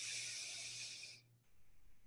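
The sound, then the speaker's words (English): A deep breath drawn in through the nose: a steady, airy hiss lasting just over a second, then cutting off into quiet. The whole clip is faint. “just start centering into your body, taking a deep breath in through your nose,”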